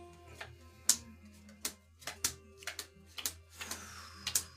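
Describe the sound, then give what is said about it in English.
Wet playing cards are flipped one after another onto a table, making many sharp, slapping snaps in an uneven rhythm over a steady low hum. “You can hear that wet card sound. He wetly flips the card.”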